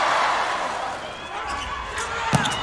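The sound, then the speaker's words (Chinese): Tatsunori Otsuka's volleyball serve in a Japan–Iran match, a single sharp hit near the end ringing out over steady crowd noise and commentary. “大冢达宣的发球，”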